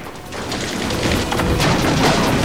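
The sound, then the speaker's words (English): Machine-gun fire tears apart a wooden barn's paneling in a loud, continuous barrage of rapid cracks and splintering thuds that grows slightly denser toward the end. “Beckett aims at him, but is forced back as Suruhano's machine gun cuts the barn's wood paneling apart.”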